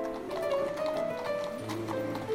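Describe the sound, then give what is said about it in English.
Horse hooves clip-clop steadily, drawing a carriage on a long, difficult journey to Warsaw in snowy, icy weather. Soft rhythmic hoofbeats continue throughout. “She sets out on the long, difficult carriage ride to Warsaw.”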